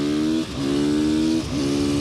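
A car accelerates hard on a wet track on rain tyres, its loud, harmonic engine note holding steady with two brief dips, like quick gear changes.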